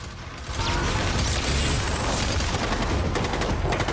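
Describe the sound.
Battle noise with gunfire: a dense, loud, continuous roar of rapid cracks and clatter that begins a little softer and quickly swells to full strength, holding steady throughout with no voices.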